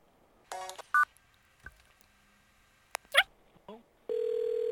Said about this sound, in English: Linda Temple, dial 101